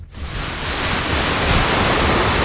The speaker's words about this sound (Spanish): Así, este es el sonido. Con esa fuerza va el río por Alcalá.